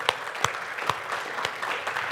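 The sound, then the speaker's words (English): A church audience claps hands in praise during a Sunday morning service, a dense, even patter with a few sharper, louder claps standing out. “Come on, bless the Lord with a hand clap of praise.”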